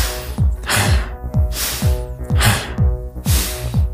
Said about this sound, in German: Ich atme viel, viel schneller ein und aus, als ich das normalerweise tue. Ich hyperventiliere.